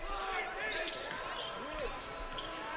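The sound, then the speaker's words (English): A basketball dribbled on a court during a BYU versus Montana Tech college game: bounces thud under a steady crowd roar while a voice talks over the action. “dribbles right around the double team all the way to the rim and lays it in for two.”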